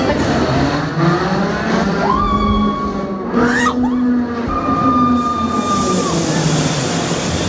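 Roller coaster ride noise: a loud, steady rumble of the cars running on the track throughout, with sustained squealing tones rising and holding over it.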